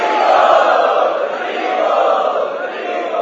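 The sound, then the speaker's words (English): An audience at an evening preaching-mission gathering chants loudly to welcome special guests. Many voices merge into a dense, sustained roar that swells and eases slightly without a break. “They are the special guests this evening. Let us welcome them by loudly chanting.”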